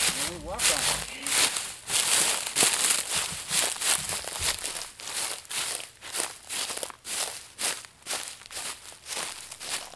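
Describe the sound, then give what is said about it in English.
Crunching footsteps of people treading on dried bean plants covered by a sheet on a gravel driveway to loosen the beans from their pods, a long run of many rhythmic, crackling crunches at a steady walking pace. “They cover the dried plants with a second sheet, and then they walk on them.”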